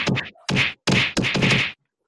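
Punches thrown at someone named Pete land as a few heavy, dull thwacks in quick succession, each a broad, loud impact burst with short gaps between.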